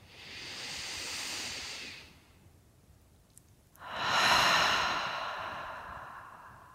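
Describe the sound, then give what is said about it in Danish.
A deep breath during a guided yoga session: a long, airy inhale, a short quiet pause, then a louder, longer breathy exhale that slowly fades. “Igen tager du en dyb indånding. Og giver slip. Gør det en gang til.”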